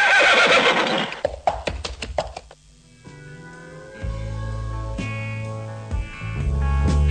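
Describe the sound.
A horse neighs in a loud, shrill whinny that breaks into rapid quavering pulses and fades out, followed by lower sustained tones.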